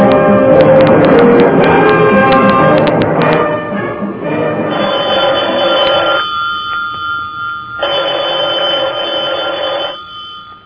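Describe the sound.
A telephone bell rings in long, loud bursts with a short pause between them, following a dense, busy passage of other sound.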